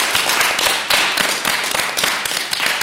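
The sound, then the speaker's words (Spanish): An audience applauds at the close of a local radio session about Holy Week. Dense, steady clapping continues at an even loudness throughout, with no voices. “Terminara con vuestro aplauso, porque es que yo me lo he pasado tan sumamente bien. Venga, vamos a aplaudir todo, amigo.”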